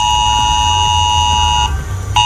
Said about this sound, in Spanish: Es el aviso que han recibido en sus teléfonos móviles tras el vuelco de un camión articulado.